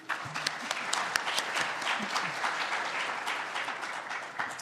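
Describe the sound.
An audience applauds to welcome a panel at a conference, with dense, steady clapping from many hands sustained throughout.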